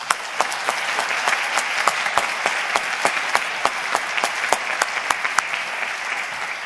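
A church audience at a Presbyterian Sunday service applauding to welcome a guest preacher: dense, steady clapping from many hands with sharp individual claps standing out, sustained at an even level throughout.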